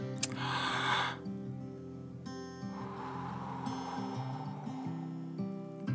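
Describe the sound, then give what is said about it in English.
A forceful exhale blows breath out hard during a guided prayerful breathing exercise. A softer, longer breath follows, both over calm, sustained background music. “Let's breathe. You ready?”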